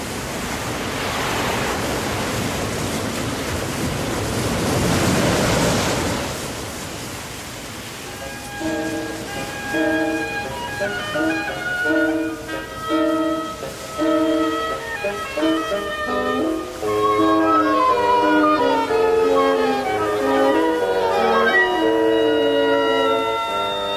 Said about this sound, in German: Die Flut!